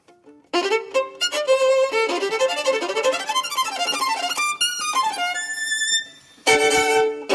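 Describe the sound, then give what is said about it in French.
Solo violin played with a bouncing bow, spiccato or sautillé: rapid, crisp, separated notes run up and down in quick arpeggio-like patterns, then stop briefly before a final fast burst. “si je fais sauter l'archet, soit c'est détaché, soit c'est spiccato. Spiccare, qui veut dire donc séparer, trancher en italien. Oui. Ou alors, carrément, sautiller. Et ça sonne comme ça.”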